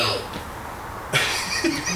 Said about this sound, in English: Cough.